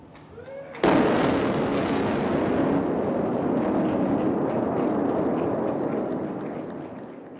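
Explosive demolition of an old bridge over the lower Hudson Valley, opened in 1955 and linking Westchester and Rockland counties: a sudden loud blast gives way to a long, heavy roaring rumble that slowly eases.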